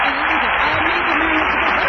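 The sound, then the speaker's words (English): An audience applauds for the film The Mirror Has Two Faces, a steady, dense patter of clapping that sounds narrow and muffled, with a voice speaking over it. “They're applauding for the mirror has two faces.”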